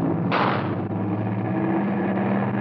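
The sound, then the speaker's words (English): A single gunshot rings out as a major is shot beside a plane preparing to take off. The sharp burst lingers briefly before fading into a steady, loud background rumble that runs throughout. “Did someone shoot?”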